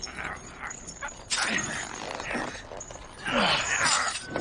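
A tower's base cracks and breaks apart in a video game. Two loud, harsh bursts of crumbling crash out over a continuous rough, grinding rumble.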